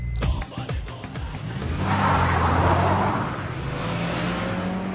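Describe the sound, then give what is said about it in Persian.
A car is started and driven off: a few sharp clicks and knocks at the start give way to a steady engine rumble that swells, then settles into a gently rising engine tone as it pulls away. “سوار ماشین میشه، زفت ماشین رو روشن میکنه و حرکت میکنه.”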